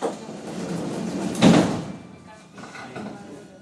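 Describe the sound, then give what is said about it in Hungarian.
Sliding doors of a Budapest metro train close with one loud thudding burst about midway, surrounded by steady rumbling train noise, with a voice heard over it. “Vigyázzanak, az ajtók záródnak.”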